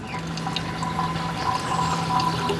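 Distilled milk liquor from fermented sour milk trickling out of a still along a sloped baffle and thin hemp cord into a container, a steady, faint watery trickle with soft drips over a constant low hum.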